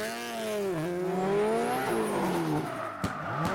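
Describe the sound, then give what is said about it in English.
A turbocharged car without a bypass valve doing donuts: the engine revs rise and fall in pitch over squealing tires, with a couple of sharp fluttering pops near the end. “you hear that turbo flutter? I know, dude. Fuck a bypass valve.”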